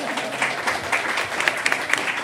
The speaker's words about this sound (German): Beide richtig, genau. Applaus, Applaus auf jeden Fall.